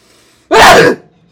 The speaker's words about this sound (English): I'm never going to get a good sneeze on this podcast, am I?